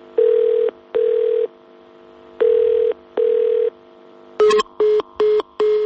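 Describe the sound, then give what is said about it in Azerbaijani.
A telephone line to a district police department rings with four long, evenly paced tones. A faster busy signal of four short, clipped beeps follows. “Çağırdı və sonra da telefon məşğul oldu.”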